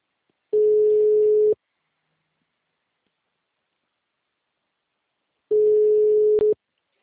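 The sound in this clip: Telephone ringing tone on an outgoing call: two steady, mid-pitched beeps, each about one second long and about four seconds apart, with silence between them.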